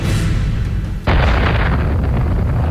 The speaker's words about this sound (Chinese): 自己的原子弹。